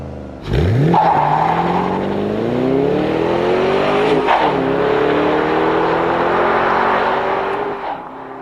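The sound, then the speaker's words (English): A 2008 Ford Mustang Bullitt engine revs hard as the car drives off, its loud V8-style growl climbing steadily in pitch, dipping briefly at a gear change, then climbing again before easing off near the end. “Here's the 2008 Bullet Mustang in action.”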